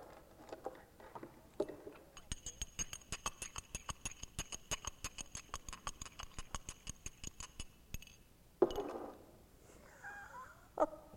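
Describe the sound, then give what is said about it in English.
A spoon stirs a mixture in a glass, giving many quick, regular clinks at a steady rhythm for several seconds, followed by a couple of louder knocks and rustling. “Now let's just stir it up here.”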